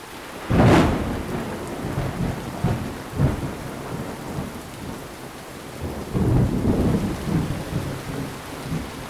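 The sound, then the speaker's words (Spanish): Heavy rain with thunder: a dense, steady hiss of downpour, broken by a few deep, rolling thunder rumbles that swell and fade. No voices. “ya se dejó venir la lluvia y se ve que es de la que moja”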